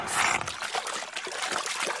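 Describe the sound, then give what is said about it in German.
Water gurgles as a creature slurps a pond dry in a children's story: a dense, continuous trickling and gushing wash that stays steady in loudness for about two seconds, with no voices. “Wozu bin ich denn ein Kalisaurier? Kali schlürft den Teich aus.”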